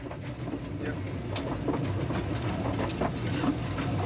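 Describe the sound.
A saddle tank steam locomotive running: a continuous low rumble with steady rail clatter and faint hissing, holding an even loudness throughout.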